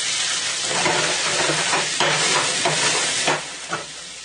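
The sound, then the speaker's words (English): Local pink spot prawns sauté in clarified butter in a pan, giving a loud, steady sizzle that runs throughout. A few brief stirring knocks rise above the frying near the end. “Okay, we have some local pink spot prawns. I'm going to saute in this clarified butter.”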